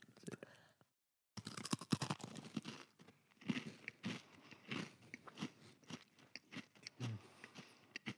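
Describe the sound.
Crunchy Christmas cookies being bitten and chewed, giving a run of sharp crackling crunches and chewing noises after a short silent gap, with people talking quietly alongside.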